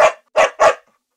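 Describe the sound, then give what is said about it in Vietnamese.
A black dog barks three times, sharp and mid-pitched, with a short gap after the first bark and two quick barks close together, then silence. “Đuổi con mực ra ngoài mau. Xích lại. Đang có oan hồn, nó sủa nhặng lên”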